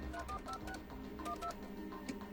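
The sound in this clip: Touch-tone telephone dialing in a dubbed film scene, where a man keys a number into another person's phone: a rapid series of short, clear DTMF beeps of varying pitch over a steady low background.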